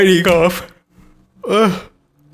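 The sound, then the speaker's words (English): A person yawns in two drawn-out, breathy vocal bursts, each sliding down in pitch, with a short quiet gap between them. “I've been fighting off yawning this whole episode.”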